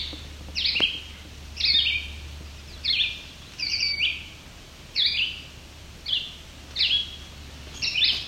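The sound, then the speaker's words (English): A vireo sings a run of short, high, chirping phrases, about eight in all, each set apart by a brief pause, heard over a steady low background hum. “Of course, this vireo is much louder than them.”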